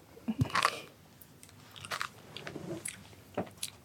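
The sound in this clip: Crunching and chewing of a cola-flavoured sweet: a few sharp bites crack at the start, then softer, irregular chewing bursts continue, with no talk.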